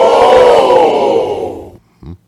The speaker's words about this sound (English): Please hold your applause. Welcome to the program. I ask you to please hold your applause.